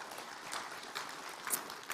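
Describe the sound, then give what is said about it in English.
A church audience applauding a guest who has been invited up: faint, steady clapping with a few slightly louder swells over two seconds. “This is Mitch. Everyone welcome Mitch.”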